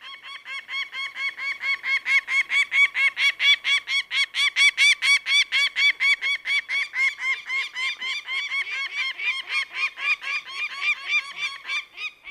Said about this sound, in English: We've got a clip of a peregrine, and then actually what you'll hear is a single peregrine falcon and then a pair of peregrines.